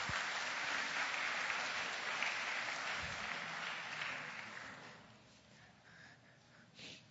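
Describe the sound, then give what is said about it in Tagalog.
A church audience applauds with a sustained wash of clapping that holds steady for several seconds, then thins out and fades to scattered faint claps. “Eh, palakpakan natin ang Panginoon, mga kapatid.”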